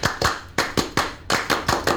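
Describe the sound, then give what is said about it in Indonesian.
Indonesian Pramuka scouts perform their rhythmic group clap. Nine sharp, loud claps fall in quick groups of two, three and four, with short pauses between the groups. “Salam Pramuka. Tepuk Pramuka.”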